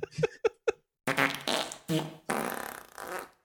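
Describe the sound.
Farts in a very large tiled public restroom: three short, sharp pops, then several longer, buzzing, squeaky blasts with brief pauses between them, reverberating in the room.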